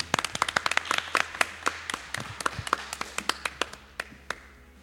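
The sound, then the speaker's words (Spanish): Hand clapping breaks out at an interview: many sharp, irregular claps from a small group, dense at first, then thinning and softening toward the end. “Venga, un aplauso.”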